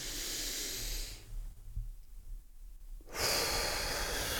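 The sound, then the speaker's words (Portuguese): Deep breathing during a guided exercise: one long, airy inhale, a quiet pause of about two seconds, then a strong, hissing exhale. “respirar profundamente. Vamos lá, vamos de verdade fazer só para você sentir. Primeira coisa, puxa o ar.”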